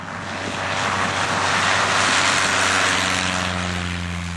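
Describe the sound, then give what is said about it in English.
A Cessna 152 two-seater propeller aircraft takes off with a loud, steady engine roar and a buzzing propeller drone that swells in volume and then eases slightly, with no voices. “This is the sound of a two-seater aircraft, in this case, a Cessna 152, taking off.”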